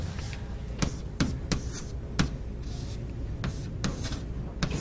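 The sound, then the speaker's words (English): Drawing strokes as someone sketches a knot diagram during a knot theory lecture: a few sharp ticks and scratches stand out over a steady low hum, with no one speaking. “drawing this, it's not a very pretty one. I'm going to draw this guy again.”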